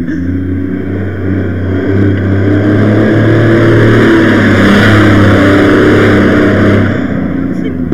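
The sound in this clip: Engine noise of a wheel loader (shovel) driving past: a steady, heavy mechanical drone with a low harmonic hum that swells slightly midway and eases toward the end.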